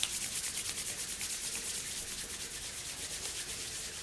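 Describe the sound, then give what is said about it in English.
Hands rubbing palms together as fast as possible, a continuous dry, hissing friction with a rapid pulsing texture from many quick strokes, steady and fairly loud throughout with no talk. “bring your hands in front of your heart and rub your palms together as fast as you possibly can.”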